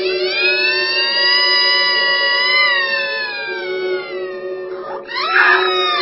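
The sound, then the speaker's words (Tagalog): A child's shrill, piercing wail at the sight of a stranger in the bedroom, held loud and steady for about five seconds before breaking into a short, wavering burst of crying at the end. “Nang makita ng bata ang estrangherong nasa kanyang silid, ay pumalahaw ito ng iyak.”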